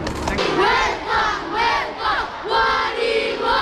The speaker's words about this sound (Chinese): 千余名教师和学生夹道欢迎，他们挥舞着中巴新两国国旗欢呼雀跃。